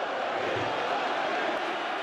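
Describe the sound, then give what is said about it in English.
A festive, tightly packed crowd at the Chupinazo in Pamplona, Spain, gathered just before the running of the bulls, makes a steady, dense roar of many voices that stays loud without a break. “It's the Chupinazo, a festive and tight crush of people in the Spanish city of Pamplona.”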